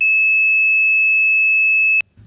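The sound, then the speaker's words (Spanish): A toy whistle from a cereal box sounds one high, pure, steady tone held for about two seconds. It stops abruptly with a sharp click, leaving faint low noise. “un silbato de juguete que habían empaquetado de regalo en las cajas de cereal crunch, unos cereales, emitía un tono de exactamente 2600 hercios.”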